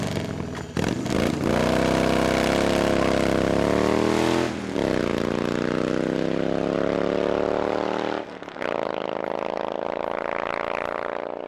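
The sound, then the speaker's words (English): Deep, throaty engine roar from dozens of Harley-Davidson motorcycles riding together, loud and continuous with a dense rumbling drone, briefly dipping twice before surging back. “The unmistakable roar of dozens of Harley-Davidsons filled the air.”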